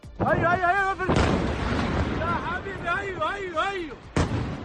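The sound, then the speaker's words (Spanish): Bombs exploding over a city during an overnight air strike on Tehran: two sharp, loud booms a few seconds apart, with rumbling and wavering human voices in between. “Este es el sonido de las bombas que caían hace unas horas sobre Teherán.”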